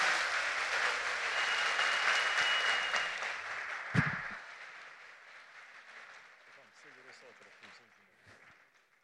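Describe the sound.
Audience applause fills a hall at a draw ceremony: thick, continuous clapping holds for about four seconds, a single dull thump lands, then the clapping thins and fades away.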